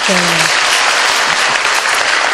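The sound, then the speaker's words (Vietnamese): Applause from an audience at a school gathering of teachers, parents and children: a dense, steady patter of clapping that fills the whole clip, with a brief voice at the start. “Chúng ta xin cảm ơn và cho một tràng pháo tay.”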